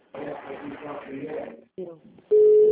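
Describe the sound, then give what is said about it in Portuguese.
A telephone tone from a VoIP call cuts in after people talk: a loud, steady, mid-pitched tone that holds to the end, preceded by a brief harmonic blip. “Não, tem alguém ligando pra alguém. Quem tá ligando aí? Quem tá no VoIP?”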